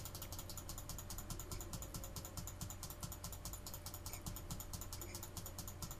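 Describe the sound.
Rapid clicking rolls a virtual six-sided die. A dense, steady stream of quiet mechanical clicks runs throughout without pause, and no one talks.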